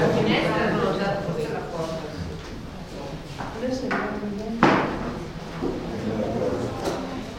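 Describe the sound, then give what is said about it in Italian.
A door being closed gives a single short thud midway through, heard under continuous talk and room chatter at an Italian lecture. “No, possiamo chiudere la porta forse, eh?”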